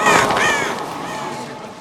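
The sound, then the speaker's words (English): Crows caw harshly in a short burst during a stage magic act, as gloves tossed into the audience become flying birds. The loudest calls come at the start, then a steady noisy wash carries on at lower level. “He tosses them into the audience, and they turn into flying crows.”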